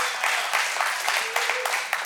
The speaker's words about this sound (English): Give the Lord a shout and a clap offering.